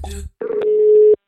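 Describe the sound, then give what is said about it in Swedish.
Telephone ringing tone of an outgoing call: a single steady, mid-pitched beep lasting under a second, following a short fragment of voice. “Då har vi ringt upp Niklas Wikegård”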